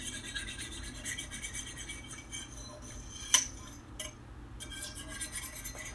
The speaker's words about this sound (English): And this is me trying to clean this pot. It's a mess.